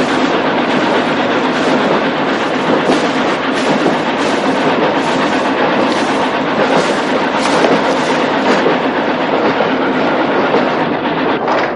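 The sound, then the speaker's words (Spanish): A train rumbles forward with rhythmic clickety-clack as it pushes snow off the covered track and sprays it to the sides. The sound is loud and continuous, with no voices. “tren avanza apartando la nieve que cubre la vía y lanzándola a chorro sobre los laterales.”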